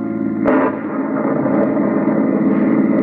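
In a radio drama, a car races too fast through a stormy, dismal night. Its low engine roar and the rush of wind and rain run steady and loud, with a sharp thump near the start.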